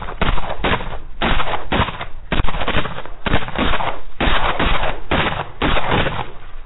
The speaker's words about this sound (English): those were just warning shots.